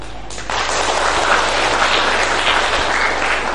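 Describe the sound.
A Buddhist audience at the Long Thành practice hall applauding: a dense, steady wash of clapping that swells louder after the first half second and holds for the rest.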